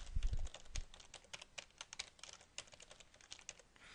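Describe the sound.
Typing on a computer keyboard while entering a name, email address and password into a user registration form, producing many quick, fairly faint keystrokes in an uneven rhythm with a few heavier taps near the start and no talking.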